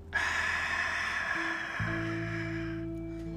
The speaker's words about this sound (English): And now exhale through the mouth once again.